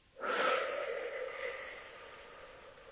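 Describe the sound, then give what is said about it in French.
A slow breath drawn in through the nose and let out through the mouth, heard as one soft, airy hiss that swells quickly and then fades gradually over about two and a half seconds. “J'inspire tranquillement par le nez et j'expire lentement par la bouche.”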